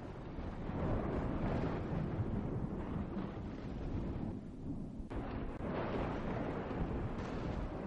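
Wind howls as thunder rumbles before rain, forming a dense, continuous roar with a low rumble throughout and a brief dip midway, with no voices.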